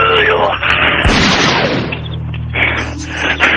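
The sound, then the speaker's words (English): A single gunshot goes off, a sharp, loud burst amid people talking and exclaiming in a comic scene. “What was that other shot I heard? I shot my foot.”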